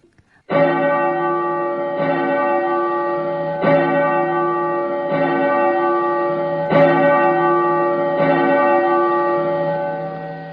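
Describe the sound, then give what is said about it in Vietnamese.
Large temple bells ring at a Buddhist monastery in the mountains, about six resonant strikes at an even, unhurried pace, each loud metallic tone sustaining and overlapping the next before slowly fading. “bỗng nghe mười mấy cái chuông lớn trong chùa cùng gióng lên, vang động cả núi rừng.”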